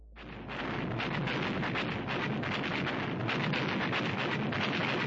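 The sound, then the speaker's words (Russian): Anti-aircraft gun fire with explosions near an armored personnel carrier makes a loud, dense roar. Rapid crackling runs through it without a break for the whole clip. “И в нашу сторону уже затарахтело еще одно зенитное орудие, перекрыв дорогу серии взрывов в опасной близости от бронетранспортера.”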